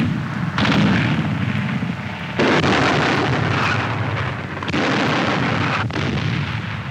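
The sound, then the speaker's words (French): Artillery fire shells the city defenses of Stalingrad: a loud, continuous rumbling barrage of dense, overlapping blasts that swells and eases in a few waves without pause. “L'artillerie pilonne les défenses de la ville.”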